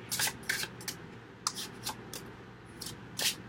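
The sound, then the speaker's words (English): Cards from a Romance Angels oracle deck being handled and shuffled to choose one: a quiet series of short, papery riffling bursts at irregular intervals, with no talk. “I'll be choosing one card from the Romance Angels deck,”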